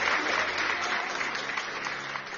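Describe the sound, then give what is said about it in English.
An audience clapping hands during a church service, a loud, dense and steady patter of many hands that holds at an even level throughout. “Clap, clap, clap, clap, clap, clap, clap, clap, clap.”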